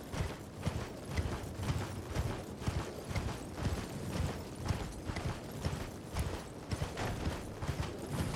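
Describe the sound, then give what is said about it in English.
Hooves clip-clop as a horse is ridden in a video game, with many quick, evenly spaced hoofbeats in a steady rhythm and no talk. “So let's get on our horse. This is going to be a lot of horse riding.”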